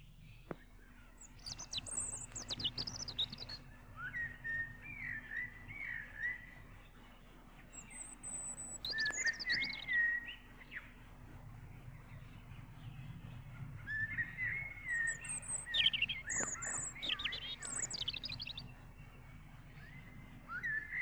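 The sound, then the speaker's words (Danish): A European robin sings several short, high, thin warbling phrases separated by pauses, faint over a steady low background hum. “Rødhals.”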